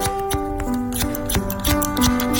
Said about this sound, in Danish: Jeg klipper altid med saks.